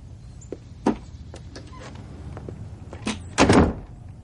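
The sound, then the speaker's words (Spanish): A door is shut inside a house in a 1997 noir film scene. A few light clicks and knocks come first, then a solid, louder thud of the closing door near the end. “descorre la cortina y cierra la puerta”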